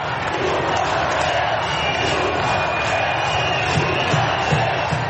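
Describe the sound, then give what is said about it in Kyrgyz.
Demonstrators carrying yellow and red Catalan flags chant slogans in the streets of Barcelona. The crowd makes a dense, steady roar of many voices at a constant loudness throughout, with no break. “Каталониянын сары кызыл желектерин көтөрүп чыккан демонстранттар Пучдемон биздин президент, саясий туткундарга боштондук деп ураан чакырып турушту.”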